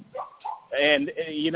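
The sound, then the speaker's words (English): A dog barks and yelps: soft whimpering first, then a couple of strong, tonal barks that fill the rest of the moment. “Sorry about the dog right there.”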